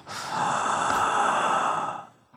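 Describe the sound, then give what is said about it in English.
Heavy breathing inside a mask, like a creepy masked Halloween figure: one long, raspy, hissing breath lasting about two seconds, fairly loud and steady before it trails away. “But you know, when you breathe inside of a mask, it's like gross.”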